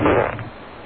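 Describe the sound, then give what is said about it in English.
A single fart, a low, buzzy blast that starts loud and trails off over about half a second, heard on its own with no talk. “for an extra prize, can you identify these farts?”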